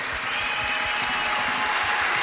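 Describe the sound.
Applause for opera singers on stage: a dense, steady wash of clapping that holds at an even level throughout, with no voices standing out.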